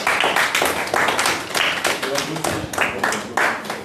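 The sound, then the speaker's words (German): Children in an audience clap to welcome two basketball players, a lively run of quick, fairly regular claps. “Wir sagen erstmal mit einem Applaus begrüßen, dass Sie überhaupt da”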